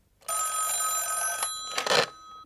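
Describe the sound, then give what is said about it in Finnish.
A telephone rings as a call is placed to a defence ministry. One bright, metallic, continuous ring lasts a little over two seconds and swells briefly near the end. “Minä soitan uudestaan. Ettepäs, minä soitan. Soitan puolustusministeriöön, Pilkingtonille.”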